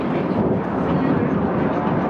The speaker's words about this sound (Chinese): 我们国家第二款隐身战斗机从我的头顶经过。